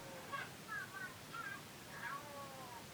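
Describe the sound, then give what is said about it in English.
A distressed cat meows, sounding as if something is badly wrong with it. A few strained, wavering meows repeat over a steady background hiss. “And something is very wrong with that cat. Now something is very wrong with that cat. But that meow was like, oh god, I'm going to die.”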